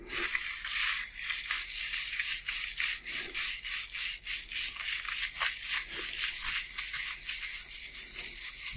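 Soft, rhythmic scrubbing of fingers on a shampooed scalp during a hair wash, with many quick, gentle strokes that stay faint and hissy throughout.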